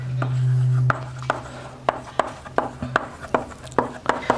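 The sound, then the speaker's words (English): Writing on a board during a lecture: many sharp, irregular taps and short scraping strokes, fairly clear and spaced unevenly, with a low steady hum underneath at the start. “By the way, can everyone see what I'm writing on the board?”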